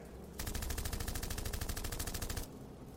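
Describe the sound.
Machine gun fire, a sustained automatic burst of many rounds, loud and rapid with an even rhythm, lasting about two seconds before cutting off.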